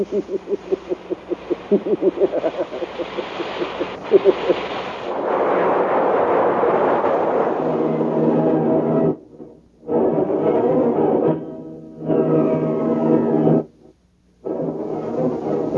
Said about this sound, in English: Rocket ship hits the planet.